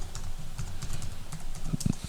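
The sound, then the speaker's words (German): Someone types a reminder on a computer keyboard, a brisk run of soft key clicks that ends with a couple of louder clacks. “Ich muss mir gerade einen Reminder schreiben.”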